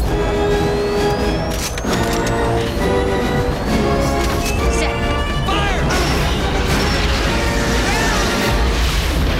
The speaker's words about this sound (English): The abdomens burst open and the blue-white liquid shoots into the sky. It's an explosive beam of plasma.